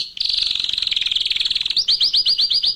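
A canary sings alone, with a rapid, high, buzzing trill held for over a second, then a run of quick, repeated, clear chirped notes.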